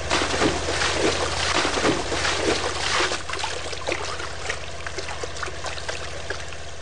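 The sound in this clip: Water rushes and bubbles as divers submerge into the sea to search the seabed for a wreck, a dense continuous wash that is loudest over the first three seconds and then settles into a steadier trickling flow, with no voices.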